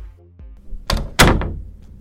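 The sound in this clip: A door being opened: after a quiet moment, two sharp clunks follow close together, the second louder and fuller, like a latch and the door swinging free.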